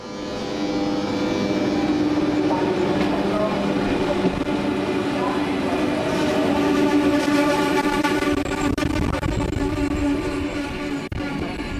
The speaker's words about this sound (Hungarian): Egyelőre ennyit innen a kicsit szélfutta Zsidenicei pályaudvarról